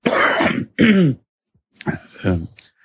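Coughing and throat clearing from someone with a mild cold: two harsh, raspy bursts, a short pause, then a few more rough throat-clearing sounds.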